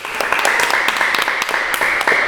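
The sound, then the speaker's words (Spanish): Applause at the close of a show, loud, scattered claps cutting through a constant hiss without letting up. “¡Un aplauso!”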